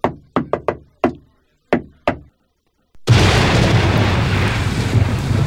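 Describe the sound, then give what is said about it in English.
Knocking on a hotel room door late at night: seven sharp, hollow raps in an uneven pattern, followed by a sudden loud, sustained rumble. “There was a knock on my door and it was like,”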